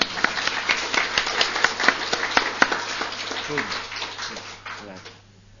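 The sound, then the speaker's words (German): Audience applause welcoming a guest, many quick hand claps fairly loud for a few seconds, then thinning and fading away into near quiet. “Also der kriegt einmal von uns jetzt einen Beifall, dass er gekommen ist.”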